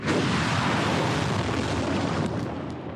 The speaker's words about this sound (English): In footage released by Iran's military, rockets blast into the sky towards northern Israel.